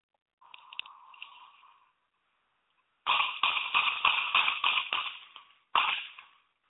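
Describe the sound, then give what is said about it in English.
Gunshots from a recorded video clip, thin and tinny: a rapid burst of sharp cracks, then one more shot after a brief pause, following an earlier stretch of faint noise. “Did you hear that? That's eight shots.”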